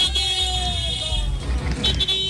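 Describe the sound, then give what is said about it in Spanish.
Car horns honking in traffic at a busy avenue intersection, sustained bright tones sounding over a steady engine rumble, with several horns overlapping. “Toda la raza pitando, accionando el claxon. Pítele, compadre, pítele, pítele.”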